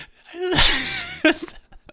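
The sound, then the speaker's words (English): A loud, drawn-out yawn from someone across a table: a long breathy, voiced stretch that ends in a brief, sharp burst of breath, with no words spoken. “the biggest like warm milk guzzling yawn from across the table.”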